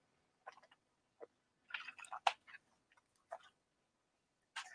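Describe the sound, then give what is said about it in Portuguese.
Someone drinking sips of water makes faint, short gulps and wet mouth clicks. A few brief sounds come at irregular intervals with quiet gaps between them. “Beber mais uma aguinha.”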